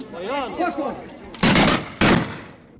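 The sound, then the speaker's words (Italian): A volley of about ten rifles with one misfire: after a voice speaks, two loud, sharp blasts of gunfire ring out about half a second apart. “Eccola la scarica di una decina di fucili. Con il colpo cilecca si capisce.”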